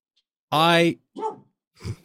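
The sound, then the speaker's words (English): A dog lying underfoot barks a few times indoors, the first bark long, loud and tonal, followed by shorter, quieter ones. “I had forgotten that the dog who is actively barking right now was underneath me.”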